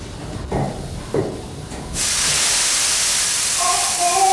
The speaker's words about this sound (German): Mein Gott, ein Dampfrohr ist geplatzt.